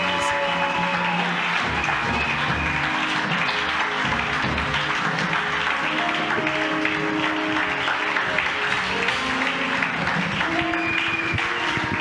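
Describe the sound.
Applause from a church audience praising during a worship service, dense steady clapping that fills the whole stretch without a break.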